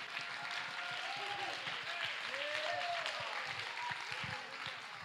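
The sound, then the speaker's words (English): An audience at a church service claps hands in praise, with faint, dense, steady applause and a voice and sustained tones running over it. “Clap your hands and give God the praise.”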